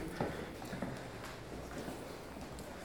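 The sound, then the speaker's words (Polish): Faint footsteps climb a flight of stairs: a few soft, evenly spaced treads, quiet and alone. “Okej, teraz już wchodzimy, proszę Państwa, na schody i to jest ostatni odcinek.”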